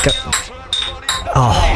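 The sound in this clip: Beer bottles clinking: a few bright, glassy clinks with a short ringing tone, separated by brief gaps amid other noise.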